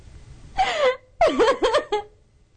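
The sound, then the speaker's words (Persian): A woman cries in a kitchen, sitting by the cabinets with a soot-blackened, dirty face. A drawn-out wavering wail is followed by a pause, then a run of shaky, breathy sobbing bursts that trail off. “سمیره توی آشپزخونه با صورت سیاه و کثیف و خاک‌آلود میشینه پای کابینت و گریه میکنه.”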